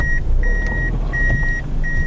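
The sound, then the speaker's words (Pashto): Repeated steady electronic beeps from a black Toyota Fielder car maneuvering to park by the road. The beeps come in uneven lengths and play over a constant low engine rumble. “دا د سړک پر سر خپل تور رنگ فیلډر موټر شاو مخ ته کوي ترڅو قانوني و دروي.”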